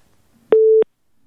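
A telephone busy tone sounds after a caller's line is cut: a single short, steady, mid-pitched beep alone in near silence.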